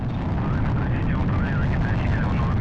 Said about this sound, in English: Lift off. Lift off of the Soyuz TMA-05M carrying Sonny Williams, Yuri Malenchenko, and Aki Hoshide on a two-day journey to the International Space Station.